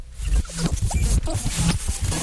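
A cassette tape is pushed into a player rigged up with a makeshift fix, making rough scraping and rasping clatter in several uneven bursts over about two seconds.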